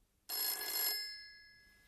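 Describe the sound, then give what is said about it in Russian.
A telephone bell rings once as a call is placed to a hotel, a bright metallic burst that stops abruptly and leaves a fading ringing tail, faint and alone with no voices. “Выяснив, в какой гостинице она остановилась, я позвонил ей.”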